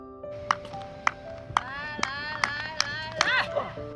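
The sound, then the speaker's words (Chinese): Sharp hand claps guide the throwing rhythm of a fully blind javelin thrower. About eight crisp claps come at an even, slightly quickening pace over sustained tonal sounds. “而指导全盲队员石慧清的标枪投掷，则得通过击掌发出的声音引导队员投掷的节奏。”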